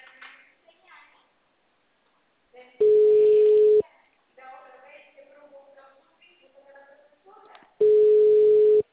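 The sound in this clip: A telephone ringback tone plays as a call is forwarded to voicemail: two long, steady, mid-pitched tones of about a second each, several seconds apart, with people talking in between.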